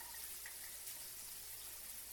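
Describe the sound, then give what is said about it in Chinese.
Water runs while someone bathes, a faint, even hiss of flowing water that continues throughout with no talk. “我还在洗澡呢。”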